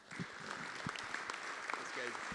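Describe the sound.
Faint applause welcomes a speaker: soft, scattered clapping at low volume, with voices murmuring over it.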